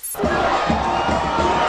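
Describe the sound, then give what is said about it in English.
Saints fans cheer and shout on Bourbon Street in New Orleans at night after the Super Bowl win over the Colts. A sudden, loud roar of whoops and yells erupts and carries on without a break. “That's the sound of fans celebrating on New Orleans' famous Bourbon Street last night after their Saints' victory over the Colts in the Super Bowl.”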